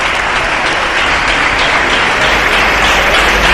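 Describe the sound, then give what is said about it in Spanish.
Audience applause at the Alma de Huelva 2026 awards ceremony as the honourees come out: dense, continuous clapping from a large crowd, loud and steady throughout with no break. “Hay aplausos.”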